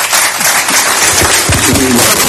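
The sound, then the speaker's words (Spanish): Loud, dense applause from a crowd, a continuous rush of clapping that stays strong throughout, with brief voices rising through it near the end. “A ver, ¿quién está acá? Aplausos.”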